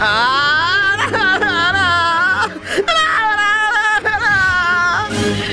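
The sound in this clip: Performed crying and whimpering from a person in a comic scene, a loud, wavering, high-pitched sobbing wail with brief catches of breath, continuous throughout.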